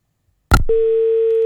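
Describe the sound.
A telephone dial tone after a caller's line dropped: a sharp click, then a steady, unbroken mid-pitched tone that holds firmly to the end, with no voices.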